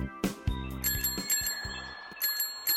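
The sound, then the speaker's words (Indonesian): A child's bicycle bell rings out in several bright metallic dings, some quick strikes close together and others spaced apart, fairly loud over a low background hum. “Kakak, nanti sepeda Awan belnya mau diganti yang bunyinya tetet.”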